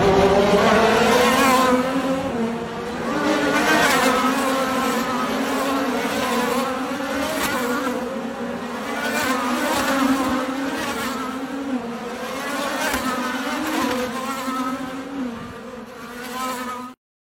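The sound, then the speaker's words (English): IndyCar race cars on the final lap of a Grand Prix give a continuous, loud, high buzzing engine whine whose pitch wavers slightly as the cars pass, holding steady for the whole stretch. “I've got some video for us. Here's the IndyCar. This was the final lap of the main event, the Grand Prix on Sunday.”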